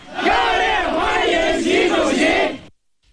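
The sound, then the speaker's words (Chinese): Representatives of local overseas Chinese communities and Chinese companies welcome Xi Jinping in New Delhi, waving Chinese and Indian flags. Many voices chant loudly in unison for about two and a half seconds, then stop abruptly. “当地华侨华人和中资企业代表挥舞中印两国国旗，热烈欢迎习近平到访。”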